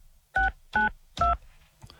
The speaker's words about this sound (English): So let's just hit the phone here. If I can see the buttons.